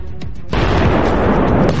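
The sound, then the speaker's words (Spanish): Artillery barrage from Royal Navy warships with 16-inch guns and hundreds of 25-pounder field guns, a loud boom that opens into a sustained, dense, rumbling roar of fire. “Este gran despliegue de fuego incluye buques de guerra de la Armada Real a más de 20 kilómetros y enormes cañones de 16 pulgadas, mientras que cientos de Pounders 25 disparan miles de granadas a las SS”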